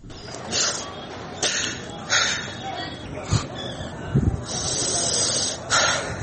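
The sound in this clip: An elderly tribal elder from Jodri village in Haska Mena sobs after a deadly bombing, with several irregular, gasping breaths and choked bursts at a fairly low level.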